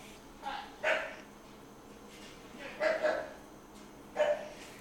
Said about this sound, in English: if you hear that, that is my older sister's dog